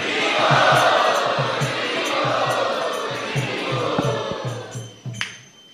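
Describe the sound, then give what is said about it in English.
A crowd chants loudly to welcome a guest at a Hare Krishna Sunday feast program. The massed voices form a dense, sustained roar, with steady rhythmic low pulses running beneath and a few sharper accents near the end. “We would like to welcome him in our traditional way by loudly chanting.”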